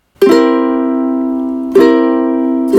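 A C7 chord strummed on a stringed instrument: two loud, bright strums, each left ringing and slowly decaying, with a third strum just starting at the end.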